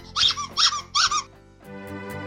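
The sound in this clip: Rubber duck squeaks from a collector's toy: three sharp, high squeals in quick succession, each a short wheezing burst, followed by a steady, low humming tone.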